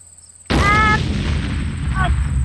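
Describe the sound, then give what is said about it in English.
A big bomb explosion bursts in abruptly after a near-silent start, a loud deep boom followed by a sustained, rumbling roar that fades only slightly over the remaining two seconds. “before I give you the money, I'm going to set off this big bomb and kill us both.”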